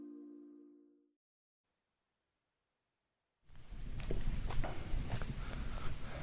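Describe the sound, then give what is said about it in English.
Footsteps crunch through a dense sugarcane field in the Dominican Republic. Brittle stalks rustle and snap in a busy stream of crisp crunches, which starts abruptly after a short tone and a stretch of quiet. “I'm walking now towards what looks like a wall of green sugarcane. We've arrived in the Dominican Republic. Expect a bit of crunching as I move through.”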